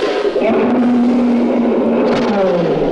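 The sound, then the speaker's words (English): A giant squid sound effect from a radio drama, a loud, continuous growling roar like a revving engine, held steady with a slowly drifting low tone. “Dad, what was that? It must be that squid. I never heard such a sound before.”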